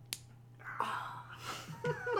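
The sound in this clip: A Trivial Pursuit wedge clicks into a game piece with one sharp, short plastic snap, followed by faint voices.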